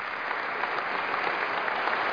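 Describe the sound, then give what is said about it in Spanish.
Steady applause from an audience asked to clap for a senator at a ceremony: a dense, even wash of many hands clapping at constant loudness throughout, with no voices. “la senadora Dolores Padierna, para quien pido un aplauso.”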